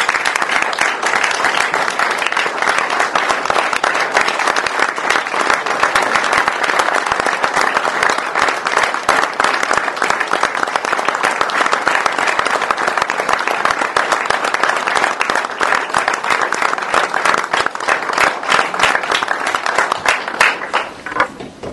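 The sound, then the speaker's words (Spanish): Sustained applause from a crowd at a political gathering, honoring a colleague: dense, even clapping holds at a steady loudness for about twenty seconds, then thins out and fades at the very end. “vamos a recordar también este aplauso a la compañera Estela Maldonado”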